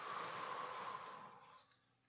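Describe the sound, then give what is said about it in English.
A deep, deliberately exaggerated breath drawn in during a guided breathing exercise: a steady, airy rush that holds for about a second, then fades away to near quiet as the breath is held. “Just want you to take some deep breaths. Just breathe in and exaggerate these breaths a little bit. I want you to go. And then hold it.”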